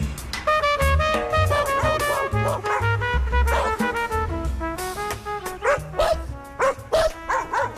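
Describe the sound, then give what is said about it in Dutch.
Dogs bark in a wealthy villa neighbourhood street with high gates in northern Paramaribo. Many barks come in bursts, loud and dense, over a steady tonal background that runs through the whole stretch. “De honden zijn waaks in de Matzeligerstraat.”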